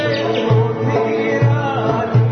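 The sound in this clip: A monk from Draganac monastery imitates a bird call with his voice: three low, hollow hooting notes spaced at an even pace over a steady droning background.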